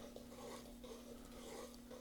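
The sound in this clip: A roux of flour and water is stirred in a pot for a Cajun venison piquant, heard as faint, soft, repetitive scraping strokes over a steady low hum.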